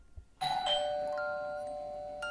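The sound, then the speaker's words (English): A doorbell rings late at night in a living room: a two-tone chime, one bright tone and then a second, each ringing on and slowly fading, with no voices. “in the living room, all of a sudden, the doorbell rang.”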